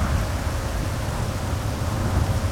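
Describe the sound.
Rain falls as a dense, unbroken hiss over a low, continuous rumble, steady and even from start to finish with no distinct thunderclap or voices.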